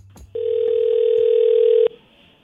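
A telephone dial tone heard when dialing out: a single steady, mid-pitched continuous hum held for about a second and a half, then cut off abruptly, with a faint click at its start.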